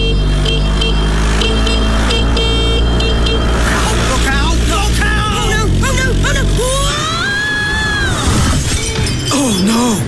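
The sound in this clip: Road traffic with a moped as its rider falls off: a low engine drone under people talking, a crash, then the engine stops and voices continue.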